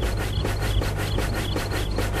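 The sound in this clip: Rubbing polish onto something, heard as steady, rhythmic back-and-forth strokes with a scratchy texture, continuous and fairly loud.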